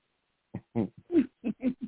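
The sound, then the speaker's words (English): Owls hooting outside by a porch: a rhythmic series of short, low, hollow hoots, about seven notes in quick succession, with no talking. “I'm sitting here on the porch. As soon as you start talking, the owls start hooting.”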